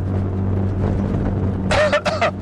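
Steady low engine hum and road rumble inside a car driving toward downtown, continuous and fairly loud, with no talk.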